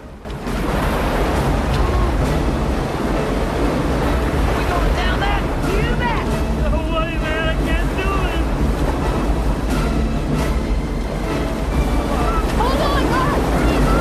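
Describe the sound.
A boat splashes down through river rapids over a break in the riverbed into churning white water. A loud, continuous roar of rushing water and spray fills the whole clip.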